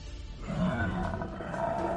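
A tiger-headed creature roars, giving a deep, rumbling growl that holds steady and fairly loud for about two seconds.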